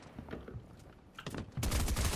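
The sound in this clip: Gunshots from pistols in a video game: a few sharp shots over steady low background noise, then a loud, dense run of rapid firing toward the end.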